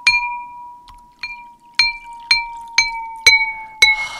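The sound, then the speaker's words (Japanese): Ceramic donburi bowl tuned with water, struck again and again, giving eight bright, ringing, bell-like tones that each fade quickly; the second strike is faint. “今これどんぶりの音です。 だんだん低くなります。水を入れていきます。”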